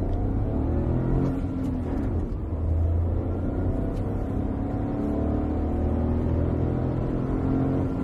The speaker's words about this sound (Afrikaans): Die 3-silinder turbo petrol, 66 kW en 135 Nm, trek vir 'n klein 900 cc heel gewillig hier op die hoofveld